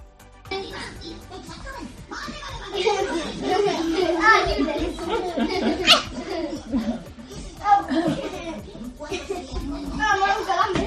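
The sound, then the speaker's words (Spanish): Children play and chatter during a busy morning breakfast rush, their lively overlapping voices and shouts continuing without pause at a steady, fairly loud level. “este sonido de niños, pues haciendo cosas de niños por la mañana, con el lío del desayuno”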